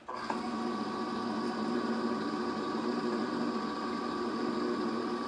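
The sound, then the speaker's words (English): An electric can opener whirs as it opens a can of mandarin oranges: a motor hum starts abruptly and runs on as a steady, buzzing drone with no breaks, fairly faint throughout. “I'm using an electric can opener, and I'm gonna open up the mandarin oranges.”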